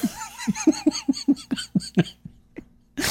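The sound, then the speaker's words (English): One person breaks into a burst of quick, rhythmic giggling laughter. After a brief gap it ends in a short, noisy nasal snort. “Sorry, I just snorted. I did not mean to do that.”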